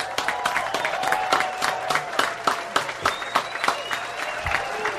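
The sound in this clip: Audience applause for a performer: steady, crowded clapping with a few sharper bursts, lasting about five seconds.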